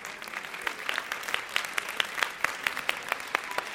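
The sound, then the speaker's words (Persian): Children applauding themselves, a steady patter of many hands with sharp individual claps standing out at a quick, fairly regular rhythm, moderately faint throughout. “لطفا خودتون تشویق کنین بچه ها”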